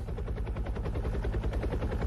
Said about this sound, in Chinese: 你看直升机来了。